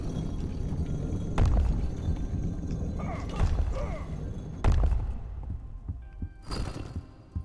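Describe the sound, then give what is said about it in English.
Mechanical lever trap shooting out of a wall in a video game: a few heavy, irregularly spaced thuds and clunks over a busy, rumbling game backdrop. “big lever thing that shoots out of the wall. Let's watch out for those. Okay, they shake before they shoot out.”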